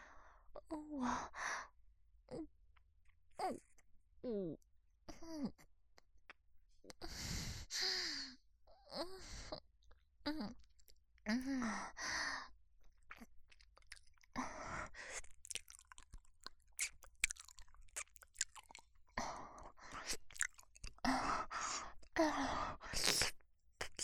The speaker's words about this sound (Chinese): 热烈的接吻。